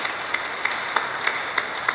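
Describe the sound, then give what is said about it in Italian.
Audience applause for an absent artist at a book-art presentation, a soft continuous wash of clapping with sharp claps recurring in an even, regular rhythm. “Anche in questo caso facciamo un applauso a Patrizia Bigarella, che non è con noi.”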